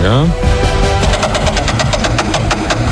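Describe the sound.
A prize wheel spins during a game show, giving a run of rapid, evenly spaced ticks that carry on to the end over a tonal background.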